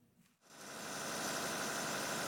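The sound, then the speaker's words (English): A backup power generator runs during a power cut in the Sudanese capital. Its droning engine hum swells in after a brief quiet moment and then holds steady and constant. “Ahmed Yaqub checks on his generator several times a day to make sure it's running properly.”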